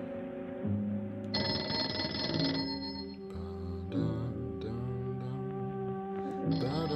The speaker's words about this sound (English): The phone is ringing.